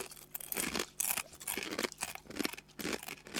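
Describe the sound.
Crunching bites of a crisp, chili-flavored snack: loud, brittle crackles and chewing crunches in many quick, irregular bursts, with no talking.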